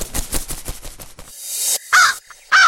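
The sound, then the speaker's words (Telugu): A crow caws twice, loud and harsh, near the end. Before the caws comes a run of rapid, rhythmic pulsing. “కాకి కాకి అమ్మా కాకి”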